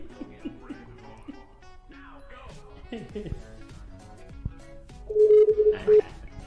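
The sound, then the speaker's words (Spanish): A telephone number is dialed, giving a short burst of loud keypad tones near the end. Quieter tonal sounds come before the beeps. “Y si no, le marcamos a Aguascalientes.”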